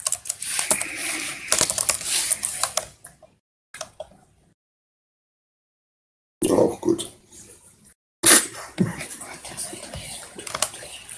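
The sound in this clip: Typing on a computer keyboard: dense bursts of rapid clicking, broken by a stretch of near silence before the keystrokes resume.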